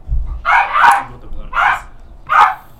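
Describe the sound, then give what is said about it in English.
A dog trying to get at another dog barks loudly, a few sharp, mid-pitched barks in short bursts separated by brief pauses, alone without talk. “He's trying to get the other dog. That's why I said if we should scare him.”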